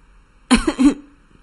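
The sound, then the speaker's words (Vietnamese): A young, tall, slender woman lying in bed coughs as she chokes on cigarette smoke. Two harsh, voiced coughs follow each other quickly, loud and alone against silence. “Đột nhiên, một cô gái dáng người cao gầy, trần như nhộng, đang nằm bên cạnh Vương Hạo bị khói thuốc làm sặc đến ho khan lên.”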